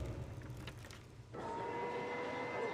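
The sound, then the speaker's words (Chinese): Faint, steady rumble of a train travelling to Anyang, a low continuous drone that shifts in tone partway through, with thin sustained tonal lines in the second half. “坐火车前往安阳”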